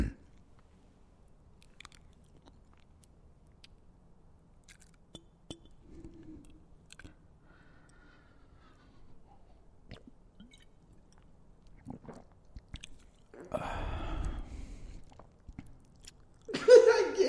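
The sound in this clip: Close-miked ASMR chewing and biting, mostly faint, sparse clicks and mouth sounds over near silence, then a louder crunchy burst of chewing late on, followed by one more short crunch.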